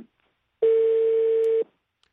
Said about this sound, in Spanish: perdimos la llamada con Vladimir Turro